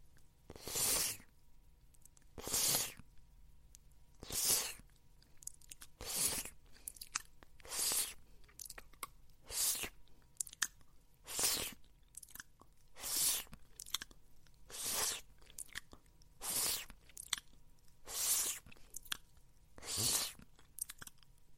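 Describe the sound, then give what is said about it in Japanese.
Wet licking and slurping of saliva off a ball gag held in the mouth: many soft, moist smacking strokes repeating at a steady pace of roughly one per second, with no talking. “せっかくだから、口にくわえたままのギャグボールの唾液を、舐めとっちゃおう。”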